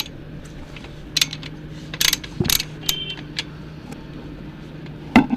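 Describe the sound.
A hand tool tightens a fastener with a few scattered bursts of sharp ratcheting clicks and mechanical clatter over a low steady hum.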